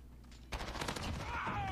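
Gunfire in a shooter video game: a dense, crackling burst of shots begins suddenly after a moment of low background noise and keeps rattling until the end.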